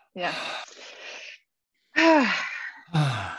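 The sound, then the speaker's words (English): A person takes big, deep breaths: three loud, breathy bursts of air, with a silent pause between the first and second. The breaths have a voiced, gasping and sighing quality, with some changes in pitch. “So take a big breath and...”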